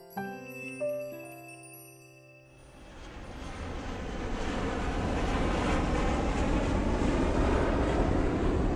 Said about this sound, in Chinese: 我现在在飞往北京的飞机上